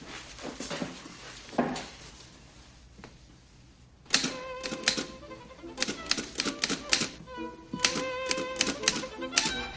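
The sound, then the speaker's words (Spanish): Typewriter keys strike rapidly and irregularly as a secretary types; the clacks thin out briefly, then return in a louder, denser burst of sharp taps with a few metallic knocks. “La guapa chica se sienta a la máquina de escribir.”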